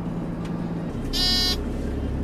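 A garbage truck reversing at a landfill in Tampere: a short electronic beep rises over the steady, low rumble of the engine.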